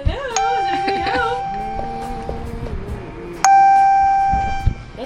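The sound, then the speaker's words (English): A mobile phone ringtone with a doorbell-like sound gives bright, sustained chiming tones, struck a few times and ringing on with steady pitch, while people talk over and between the rings. “Is that a doorbell? It's my phone.”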